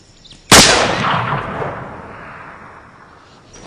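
A single rifle gunshot aimed at a young kangaroo on a ridge: one sharp, loud crack that trails off into a long, gradually fading rumble over the next few seconds.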